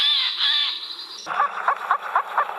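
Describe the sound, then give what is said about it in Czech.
A Eurasian jay call played back from a recording beside a display of stuffed birds: a loud, continuous high harmonic tone gives way to a run of harsh, raspy calls repeating in quick succession. “Pustíme si sojku? Takže už tam tady řeve”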